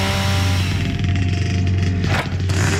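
A chainsaw cuts wood as a sound effect in a radio advert, its engine holding a loud, steady buzzing drone that dips briefly near the end.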